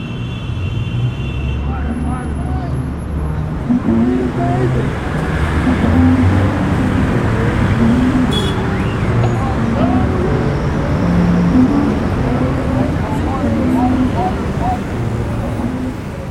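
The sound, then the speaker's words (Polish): Big-city street traffic in Chicago forms a dense, continuous roar of engines and road noise, mingled with a murmur of voices, holding a steady loudness throughout. “Posłuchaj odgłosów dużego miasta, Chicago.”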